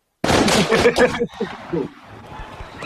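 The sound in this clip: Gunshots in a police shooting, several sharp, loud cracks in rapid succession that start abruptly and then fade into a rougher tail, with people's voices mixed in.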